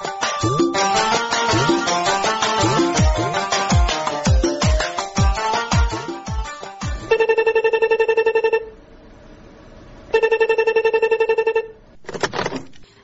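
A telephone rings in a drama scene, sounding two long, steady electronic ring bursts separated by a pause. The rings come in the second half after a busy stretch of other tonal sound.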